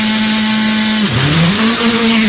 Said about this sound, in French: C'est parti pour la voiture numéro 15 avec Gianni Barré, Kushal Lundlal.